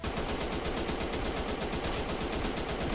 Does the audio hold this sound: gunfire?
yes